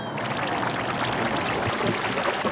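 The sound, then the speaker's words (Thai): Water splashing from flutter kicks by a swimmer holding the pool edge: a continuous, loud, dense wash of churning water with no breaks. “จับขอบสระเอาข้อศอกติดกำแพงเลยแล้วเหยียบขาไปข้างหลังตีขาให้มีเสียงลองดู”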